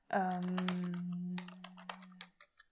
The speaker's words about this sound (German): Deswegen klappert es hier gerade kurz an der Tastatur.